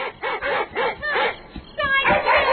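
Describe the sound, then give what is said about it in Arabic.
A dog barks as it runs to help its owner: a quick run of several sharp, high barks and yips in an uneven rhythm, loud and without talk. “انظر يا أبي، إنه كلب خالد يركض نحوه يريد أن يساعده.”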